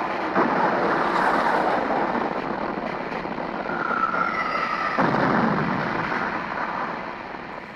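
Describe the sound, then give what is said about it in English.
Battery guns on a mothership fire in a heavy, sustained roar of blasts. A sharper burst breaks in near the start and another midway, and the roar eases off at the end. “And tell Command we've got a mothership here. And get them the data as soon as possible. All right, all right. all right. Let's close it up. Fire all batteries!”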